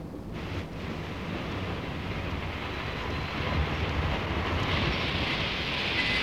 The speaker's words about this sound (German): Der Nebel ist zu dicht, mach schnell, der Zug hält nicht lange.